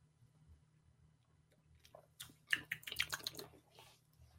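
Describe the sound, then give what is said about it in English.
A person drinking water: a brief cluster of faint, soft, wet swallowing and slurping sounds over a quiet low hum. “That sound was me having water.”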